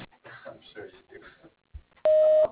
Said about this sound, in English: Please leave a message after the tone, and I will return it as soon as possible.